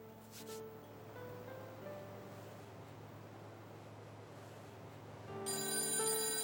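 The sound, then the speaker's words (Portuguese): A telephone rings with a steady electronic tone and a few pulsing bursts. A brighter, louder swell of sound comes in near the end. “Telefone, telefone. Eu atendo.”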